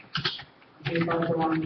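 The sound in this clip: A few quick keystrokes on a computer keyboard while a shortcut name is typed, followed by a voice speaking.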